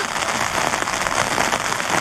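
Sudden rain comes down on a work site where the ground is getting wet. It makes a steady, dense hiss of drops with no clear gaps and no talking.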